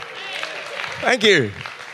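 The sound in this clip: Audience clapping during a live talk with a pen-and-drawing demonstration, a soft spread of applause that fades as a speaker's voice rises over it.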